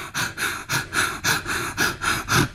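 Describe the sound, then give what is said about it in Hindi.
A person demonstrates bhastrika pranayama, a rapid, forceful yoga breathing practice, with about nine sharp, noisy breaths in and out at an even, fast rhythm. The breathing is loud and there is no talk. “आपको बहुत तेजी के सांस सांस लेना है और फिर छोड़ना है। जैसे मैं बता देती”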